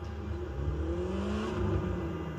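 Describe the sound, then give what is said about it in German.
A car engine in a video game gives off a steady, low, humming drone with a faint whir above it, holding an even level from start to finish. “Warum kommt auf einmal mein Auto geflogen?”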